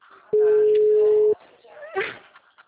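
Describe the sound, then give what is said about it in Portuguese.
Telephone busy tone after a call dropped during an internet glitch: one loud, steady, mid-pitched beep lasting about a second, then a brief lull and faint, muffled voices. “a ligação caiu, desculpa, tá? Deu uma oscilada na internet.”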